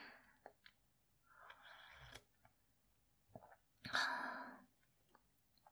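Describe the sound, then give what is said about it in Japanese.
Black tea being sipped: a short breathy slurp stands out against near silence, with a few faint taps and rustles before it. “じゃあ紅茶飲んじゃおう。”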